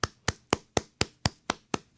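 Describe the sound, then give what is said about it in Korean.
Nine sharp, evenly spaced hand claps, roughly four per second, greet the arrival of a new producer. The claps are crisp and steady with no voices over them. “여러분 박수.”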